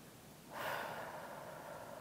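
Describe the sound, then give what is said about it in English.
One soft inhaled breath, a faint airy rush that swells suddenly and then holds steady, heard alone. “Take a breath.”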